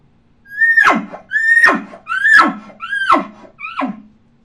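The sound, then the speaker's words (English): A man blows five elk grunts through a calling tube in a stepped-out cadence, each a raspy, horn-like call that swoops up and drops sharply in pitch, the last one softer and shorter. “Now it sounds like this through the tube.”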